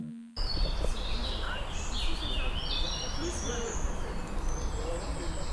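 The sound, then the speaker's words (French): Birds sing and chirp outdoors in a steady stream of high, bright calls, layered over a constant low rumble of passing cars, with people chatting faintly underneath. “c'est le bruit des oiseaux avec un peu les voitures derrière et des gens qui discutent.”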